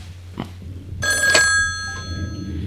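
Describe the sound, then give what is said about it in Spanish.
A telephone rings with an incoming call: one short, bright, harmonically rich electronic ring lasting about a second, over a low steady background hum. “Yo creo que me parece que tenemos por ahí alguna llamada.”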